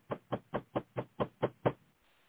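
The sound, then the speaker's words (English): Knocking: eight steady, evenly spaced, muffled low raps, heard alone with no talk, followed by quiet. “Maybe I need to knock.”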